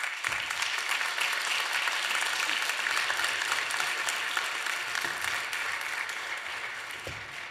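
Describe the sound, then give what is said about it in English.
An audience applauds as panelists walk up onto a stage: dense, steady clapping that holds strong and tapers off slightly near the end. “Without further ado, I want to welcome the panelists here up on the stage. Would you put your hands together as they come up here?”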